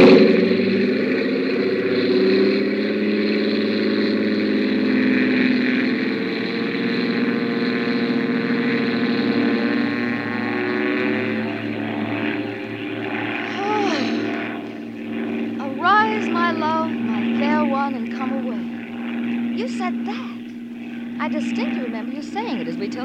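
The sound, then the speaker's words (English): A propeller airplane engine drones through a fast takeoff, a steady loud hum with layered tones, and voices speak over it in the later part. “This is going to be the fastest takeoff in the books. Here we go.”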